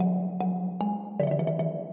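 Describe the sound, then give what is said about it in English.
Synthetic tones sonify the US treasury yield curve flattening and inverting. Two sustained pitches are marked by clicks at each note change, and both step down to lower pitches midway before a run of quicker repeated notes. “That's the sound of short-term treasury yields rising above long-term yields.”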